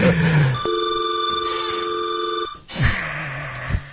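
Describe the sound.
A telephone rings with an incoming call: one loud, steady electronic trill lasting about two seconds, then a quieter stretch of low background sound.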